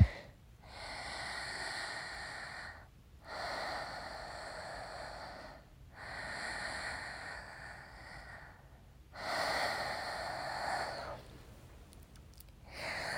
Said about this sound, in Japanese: ちょっと深呼吸しよう。